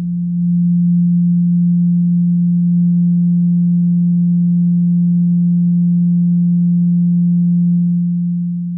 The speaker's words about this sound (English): Yeah, I'm gonna play this tone. Turn your speaker up real loud and see if you feel better afterwards.